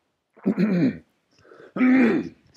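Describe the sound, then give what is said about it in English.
Throat clearing in the middle of a scripture reading: two rough, gravelly bursts with a softer rasp between them, the final burst the loudest and longest, alone without speech. “excuse me, I have to clear my throat here.”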